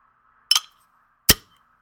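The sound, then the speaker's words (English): Two sharp, brief clicks from opening a bottle of porter beer, separated by a short pause, with a faint steady tone lingering underneath. “And the Beer Advocate users gave it a C. I'm going to crack it.”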